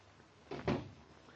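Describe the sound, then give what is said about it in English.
A door closes with one soft, muffled swing-and-thump, heard alone against a quiet background. “Get out of here. Go to your room. Thank you. I will. Good night. And close the door after you.”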